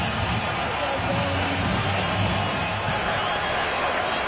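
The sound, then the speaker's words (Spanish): Baseball stadium crowd standing and roaring for a strikeout with two strikes on the batter, a dense, steady wash of loud cheering and shouting that holds without a break. “El público que se pone de pie empieza a pedir el ponche.”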